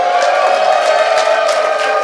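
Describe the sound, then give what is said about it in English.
Live studio audience at Sigler Fest 2017 in Las Vegas cheers and whoops in a loud, unbroken crowd roar that stays steady throughout. “And as you can tell, we have a live studio audience today because we're at Sigler Fest 2017.”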